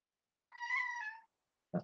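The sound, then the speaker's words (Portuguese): A cat meows once during a lecture, a clear, drawn-out tonal call about three-quarters of a second long, followed after a short pause by a brief low sound. “O que você quer, gato? Para de perturbar.”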